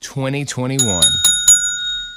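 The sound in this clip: A bell rung on a morning show: a voice speaks briefly, then four quick, bright, bicycle-bell-like rings follow in a steady rhythm, their high ringing tone lingering between strikes.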